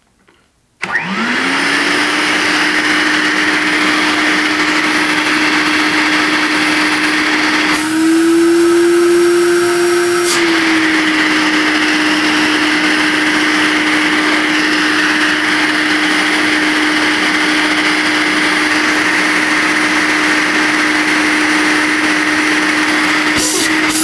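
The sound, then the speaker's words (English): An Electrolux Olympia canister vacuum cleaner switches on and runs with a loud, steady motor hum and airy rush. Its tone lifts slightly in pitch for a couple of seconds midway, then settles back. “that it runs when the suction's not blocked. So that having been said, here we go. Here is the Electrolux Olympia canister.”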